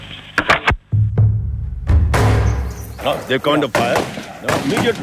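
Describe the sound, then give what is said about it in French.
Gunfire as shots are fired and immediately returned, with several sharp cracks in quick succession and a heavier blast, then voices talking over the scene. “Le tir, et il retourne le tir immédiatement.”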